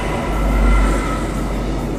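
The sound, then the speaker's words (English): Trains rolling past a doorway make a steady, loud rumble of wheels and broad rail noise that swells slightly midway and holds throughout, with no talk. “we bring you trains going past the doorway, birds singing sweetly in the background.”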